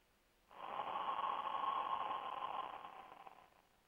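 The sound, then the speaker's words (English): A slow, deep breath for a guided breathing exercise, heard as one steady, airy rush of about three seconds. It swells quickly, then tapers off gently, with no talk over it. “Take a deep breath, gentle, through your nostrils, and exhale through your mouth. Let's do it together.”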